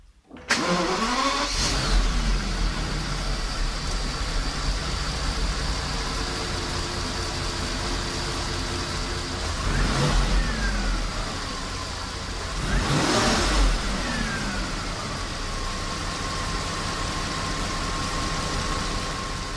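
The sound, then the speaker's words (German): A Volkswagen Phaeton W12 engine starts in a garage with the bonnet open. A quick crank catches into a loud, steady idle with a dense mechanical hum, and two brief revs swell midway before it settles back. “wie so ein Phaeton W12 sich anhört, wenn man ihn in der Garage bei offener Motorhaube startet, das hören wir uns jetzt einfach mal an.”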